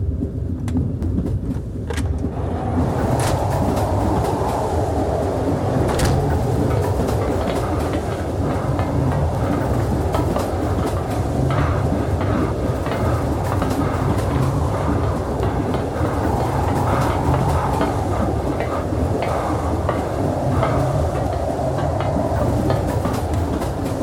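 A train running downhill, with a continuous loud rumble and rattle of the wagons on the rails that holds steady for the whole stretch.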